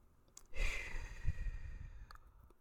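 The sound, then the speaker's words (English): A group breathes in together during a guided grounding exercise before prayer, one soft, airy inhale swelling and fading over about a second and a half, quiet and without talk. “So let's start with our breath. Let's breathe together three times. Inhale serenity.”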